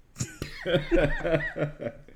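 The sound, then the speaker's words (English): A person coughs from peanuts stuck in the throat: a few harsh, abrupt coughs followed by strained, throaty voiced bursts in an uneven rhythm. “I got some peanuts stuck in my throat, and it was not welcome.”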